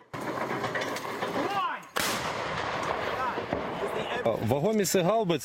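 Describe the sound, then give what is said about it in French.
Western-supplied howitzer artillery pounding enemy positions in wartime. Continuous rumbling builds to one sharp, loud blast near the middle, followed by more heavy rumble, with voices audible in the background. “l'armée ukrainienne résiste, elle pilonne les positions russes grâce au système d'artillerie occidentaux.”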